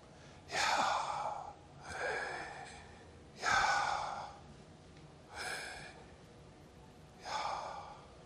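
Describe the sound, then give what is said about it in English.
Five heavy, audible breaths, made as a demonstration of breathing in and out. Each is a broad, airy rush of similar length, spaced evenly with short pauses, and no other sound is heard. “You breathe. You breathe in and you breathe out, and it sounds like this. And he breathed on them.”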